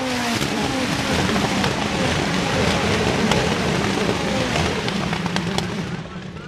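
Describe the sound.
Racing cars in a USF sprint race on the IndyCar Road to Pro ladder pass on a race track. Their engines form a dense, continuous roar with shifting pitch that eases off slightly at the very end.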